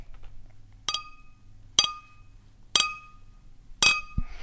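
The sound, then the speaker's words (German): Glasses clinking together: four bright, ringing strikes at fairly even intervals, each sharp and loud with a short shimmering decay, over a faint low hum. “Gläser zusammenschlagen.”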